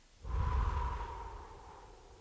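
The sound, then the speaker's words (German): A slow deep breath, drawn in through the nose and let out through a slightly open mouth during a guided breathing exercise. A soft, airy rush swells quickly, then fades gradually over about two seconds. “nimm einen tiefen Atemzug durch die Nase ein und durch den leicht geöffneten Mund wieder aus.”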